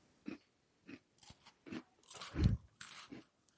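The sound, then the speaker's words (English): Crunching and biting into Tim Tam biscuits, with many crisp crunches in an uneven rhythm. The loudest, fullest crunch comes about two-thirds of the way through, and no voice is heard. “I'm doing some ASMR right now with the Tim Tams.”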